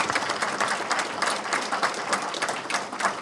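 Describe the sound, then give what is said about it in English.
An audience at a Bank of Forest event applauds to welcome speakers, with steady, dense clapping that carries on evenly throughout. “And let's give them a warm Bank of Forest welcome.”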